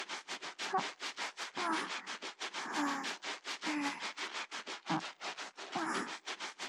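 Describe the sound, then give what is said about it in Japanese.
Rhythmic scrubbing of an armpit: many quick, brushy rubbing strokes in a steady back-and-forth pattern, with no voices. “まずは脇からゴシゴシしますね。そう、ゴシゴシゴシゴシ。”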